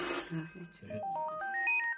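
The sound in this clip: A telephone ringtone for a call from a son: after a brief noisy start, a short electronic melody of clear beeping notes steps upward in pitch.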